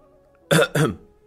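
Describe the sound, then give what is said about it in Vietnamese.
A man's dry cough, heard as two short, loud, harsh bursts in quick succession after a moment of near-silence, then quiet again. “Từ Đường Nhân nhìn thấy chỉ ho khan một tiếng, dùng tay che bụng của mình.”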